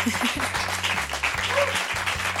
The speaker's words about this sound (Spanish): Un aplauso para ella, por favor.